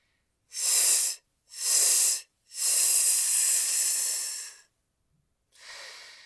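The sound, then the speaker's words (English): Air is squeezed out in forceful hissing breath pulses: two short exhales, then a longer sustained one, and after a pause another breath begins. “First, try squeezing out all of the air like this on 3 short pulses.”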